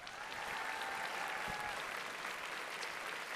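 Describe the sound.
Audience applause for honorable mention award winners: dense, even clapping that holds at a steady, fairly soft level from start to finish.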